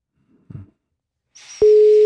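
A telephone ring tone sounds in a radio studio as a loud, steady single-pitched tone that starts partway through and holds to the end. It follows a brief low knock and a rising hiss.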